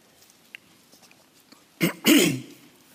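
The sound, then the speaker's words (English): A man clears his throat during a church sermon with two short, rough, raspy bursts, the second louder and longer, after a stretch of near silence. “Yeah, let me get my throat cleared up here.”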